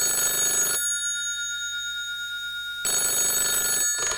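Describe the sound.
A telephone rings in two long bursts separated by a pause of about two seconds, each a bright, steady electronic trill, with no voices.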